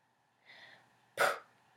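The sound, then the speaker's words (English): A forceful 'action breath' used in a spiritual breathing practice: a soft, airy breath comes first, then a sudden loud, sharp exhale burst, with quiet around both. “That is an action breath to really activate it in the here and now in the physical.”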